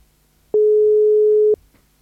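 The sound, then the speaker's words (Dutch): Telephone ringback tone of an outgoing call being placed live to a guest: a single steady, mid-pitched electronic beep lasting about one second, clear and alone, with faint low background noise before and after. “Ja, en deze keer gaan we er echt live bellen. Live bellen. Ik ben benieuwd. Oeh, hij gaat over.”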